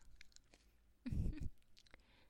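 Fruit is chewed in one brief, crunchy burst of bites midway, with softer mouth sounds before and after.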